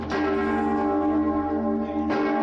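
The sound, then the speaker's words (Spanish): Mallorca Cathedral's great bell, which needs six people to ring it, tolls at midday for the death of Pope Francis. A loud, deep, sustained metallic ring hums throughout, and a fresh strike lands near the end. “La Catedral de Mallorca tocaba ayer al mediodía y durante media hora a muerte para anunciar el fallecimiento del Papa Francisco.”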